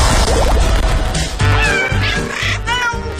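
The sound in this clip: A cat meows several times in a row, with clear mid-pitched, drawn-out cries that waver up and down, heard over a busy, steady background.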